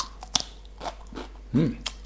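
Someone bites into a raw green bell pepper, giving a sharp, crisp crack followed by a few softer crunching and chewing sounds. A brief voiced murmur comes partway through, and everything stays fairly faint.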